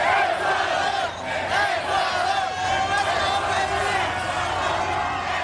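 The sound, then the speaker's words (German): Ecuador football fans celebrating their team's 2:1 win over Germany at night in East Rutherford near New York. A massed crowd sings and chants in a continuous, loud roar of voices. “So klang das in der Nacht in East Rutherford bei New York. Die Fans aus Ecuador haben dort den 2:1-Sieg ihrer Mannschaft gegen Deutschland ausgiebig gefeiert.”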